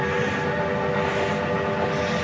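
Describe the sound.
Train carriage rolling on rails, a dense, constant loud rumble with faint steady humming tones running through it and no voices.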